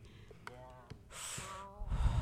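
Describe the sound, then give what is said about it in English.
Slow, audible breaths from a breathing exercise, with a sharp gasp-like intake and a long airy rush of breath set between brief voiced sounds. “Well, actually, I'm trying some breathing.”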